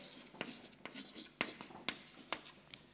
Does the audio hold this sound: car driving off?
no